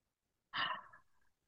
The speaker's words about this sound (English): So let's begin right now with a deep breath.